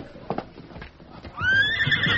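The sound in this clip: A horse neighs outside a town cafe as its rider calms it: a few dull hoof clops and thumps come first, then a loud, shrill, sustained whinny fills the second half and runs to the end.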